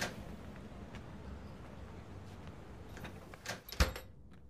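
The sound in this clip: Someone tries the handle of a door, with a low, steady background giving way near the end to a couple of brief metallic clacks and rattles from the latch.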